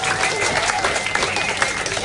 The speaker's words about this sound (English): Huge round of applause for Score Girl, please.